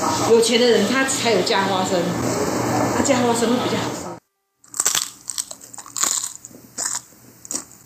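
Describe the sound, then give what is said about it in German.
Crisp, sweet puffed rice with peanuts, bound with syrup, crunches in a few sharp, dry bites after a stretch of people talking and a brief silence. “Der ideale Puffreis ist wirklich sehr knusprig und süß.”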